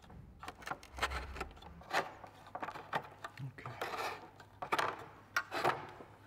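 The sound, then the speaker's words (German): Wood is shaved on a homemade shaving horse as handles and shafts are drawn down. Quiet, repeated rasping strokes come at an uneven rhythm, each a short dry scrape against faint background noise. “Das ist mein Ziehbock. Den habe ich mir gemacht, um eben Stiele abzuziehen oder Stiele herzustellen.”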